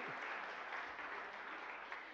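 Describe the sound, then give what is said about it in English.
Audience applause after a call for a round of applause, a dense, even wash of many hands clapping that holds steady from start to finish without voices on top. “Can we please have a round of applause?”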